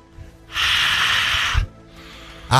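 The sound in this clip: A long, breathy exhale of warm breath blown onto a hand, lasting about a second, then a softer second puff. A brief spoken word comes between them.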